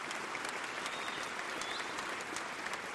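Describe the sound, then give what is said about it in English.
Standing ovation from a whole audience in a hall at a tribute to Ted Kennedy, a dense, steady wash of applause that holds at an even level throughout. “At the end, the whole audience rises for a very long standing ovation.”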